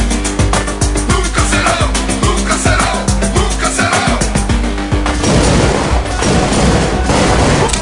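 Rifle gunfire in a video game: a loud, dense barrage of many sharp shots in quick succession, mixed with booming blasts and crashing noise throughout.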